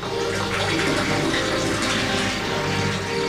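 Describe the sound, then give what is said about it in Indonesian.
Water pours steadily into a bucket as it fills, a continuous, even rushing and splashing that holds at a constant level from start to finish. “Vino langsung berlari mengambil ember. Vino mengisi ember itu dengan air.”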